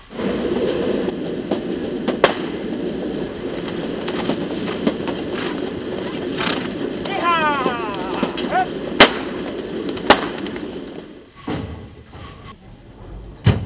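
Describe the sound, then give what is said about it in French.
A train brakes while bandits run behind it during a film shoot of a robbery scene. Heavy rolling rumble carries several sharp clanking impacts and a brief rippling brake squeal, then the noise drops away near the end. “plan sur les bandits qui courent derrière le train qui est en train de freiner”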